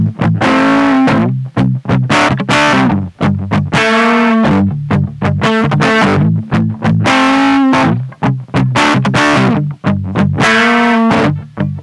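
Distorted electric guitar plays the main riff of a song through an Orange amplifier: many loud, punchy notes in a repeating rhythmic pattern, with sustained chords between short choppy stabs and no talk.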